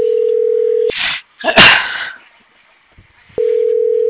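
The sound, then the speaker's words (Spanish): A telephone line tone hums steadily as a call is redialed after being cut off. The tone breaks off for a few seconds of noisy rustling bursts, then returns at the same even pitch. “pero déjale, vuelvo a marcar.”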